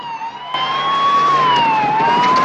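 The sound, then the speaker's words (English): A police car siren wails loudly and continuously as the car races to a burning apartment building, its pitch slowly rising and falling, with traffic rumble underneath. “An apartment building is ablaze as Murphy and Corelli's car races to the scene.”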